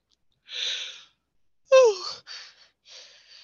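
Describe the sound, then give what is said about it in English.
A person yawns: a breathy inhale, then a voiced exhale that falls in pitch, followed by a few softer breaths, quiet and alone. “Oh, that's a good yawn.”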